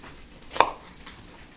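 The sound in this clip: A knife chops vegetables in a home kitchen in Portland, Oregon, for a tofu stir fry: one sharp, clear chop, then a fainter second tap over a quiet background, with no talk.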